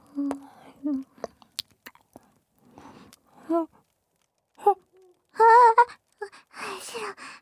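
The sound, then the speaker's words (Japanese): Close-up ASMR mouth sounds of nibbling and eating an ear: scattered soft wet clicks and smacks, then a brief moaning voice and breathy whispering near the end. “ご主人様のお耳食べちゃってた。”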